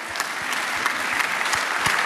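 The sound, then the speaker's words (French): Applause from the audience at a live comedy show: many hands clapping steadily, with stronger claps landing in a regular rhythm throughout. “Et applaudissements, double applaudissement”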